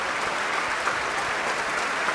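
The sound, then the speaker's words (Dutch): Thunderous applause fills the main hall of the Concertgebouw: dense, steady clapping from a large audience, loud and unbroken from start to finish with no voices. “Een daverend applaus hier. In de grote zaal van het Concertgebouw.”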